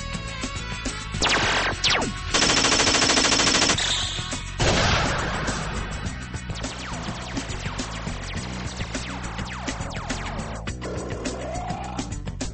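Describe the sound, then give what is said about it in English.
Gunfire from a video game played late at night: several dense bursts of rapid automatic fire and sharp blasts, loud against a steady layer of game noise, with scattered single shots between bursts. “It's midnight and you're playing video games?”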